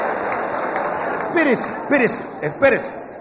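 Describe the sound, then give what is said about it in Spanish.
Audience applause at a live singing performance, a continuous dense patter of clapping heard beneath a speaking voice. “Espérense, no aplauda. No me dejan cantar, hombre.”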